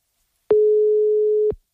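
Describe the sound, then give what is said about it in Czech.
A telephone line tone sounds as a call is dialed: one steady, pure mid-pitched beep lasting about a second, starting and stopping cleanly, heard alone against silence. “Teď ale je to na nás, pojďme vytáčet.”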